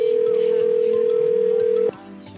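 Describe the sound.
A telephone dial tone sounds as a single steady, unbroken hum, then cuts off abruptly near the end. Only faint background noise remains after it stops.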